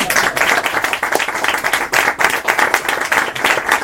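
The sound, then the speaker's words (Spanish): Audience applause at an event in Granada: dense, loud clapping from many hands, sustained and even throughout with no pause. “Ahí está. Un aplauso, por favor.”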